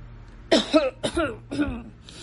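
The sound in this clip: A man coughs three times in quick succession, each cough harsh and fairly loud, with a faint rough sound trailing after the last one.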